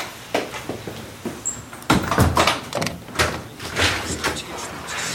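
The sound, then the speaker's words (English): A door being shut: a clattering thud of the door closing stands out among scattered knocks, rustles and bumps, with a busy, noisy background throughout. “Shut the door behind”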